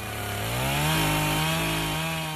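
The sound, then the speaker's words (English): A chainsaw cuts wood as utility and road crews clear roads after storm damage. Its loud, steady engine drone rises in pitch early on, then holds a constant whine with a gritty cutting buzz. “utility and road crews will be using chainsaws and other equipment to clear roads throughout the night”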